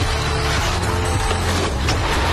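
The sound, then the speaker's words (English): A car crash sound effect: a loud, dense burst of crunching, splintering impact noise that stays harsh and intense from start to finish. “That was a hard hit. Looks like your car just got body checked by Life.”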